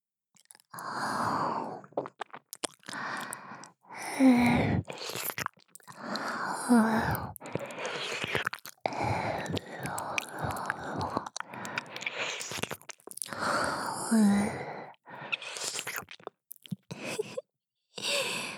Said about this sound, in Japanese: こちらのお耳もレロレロしちゃいます。